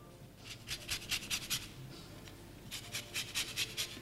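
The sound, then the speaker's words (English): Rhythmic rasping scrapes of a lemon being zested into a big bowl, coming as many quick, bright strokes in two separate runs with a short pause between them. “So first, I'm going to zest the lemon.”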